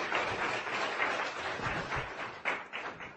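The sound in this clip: An audience at a company investor day applauds to welcome a panel onto the stage, with a continuous wash of moderate clapping that holds steady throughout.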